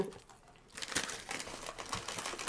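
A plastic snack wrapper is crinkled and torn open, starting with a faint quiet stretch and then breaking into bursts of sharp, crackly rustling that last to the end.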